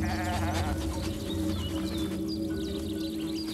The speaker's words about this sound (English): Ever vigilant, Matthias descends towards the herd. The sheep are on edge. They can smell the wolf.